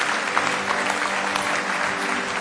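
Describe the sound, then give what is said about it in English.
Church audience clapping in praise, a thick, even wash of many hands beating steadily from start to finish at moderate loudness. “Give him one more hand clap of praise if you love him with all your heart.”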